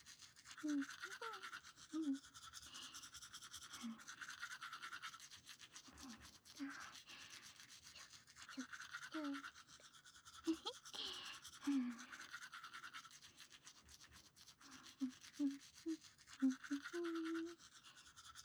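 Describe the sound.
A toothbrush scrubs the back teeth with steady, rhythmic bristle strokes, soft and close, while a quiet voice murmurs intermittently.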